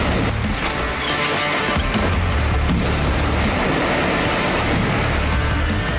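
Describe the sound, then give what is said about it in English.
Loud trailer audio from the video game Wolfenstein II: The New Colossus, developed by MachineGames and published by Bethesda: a dense, constant roar of noise over a heavy low rumble that holds at full level without a break. “That is a clip, a very, like, a loud clip of the trailer of Wolfenstein 2 The New Colossus, developed by Machine Games, published by Bethesda”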